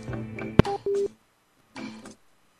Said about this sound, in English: I think that was a hang-up.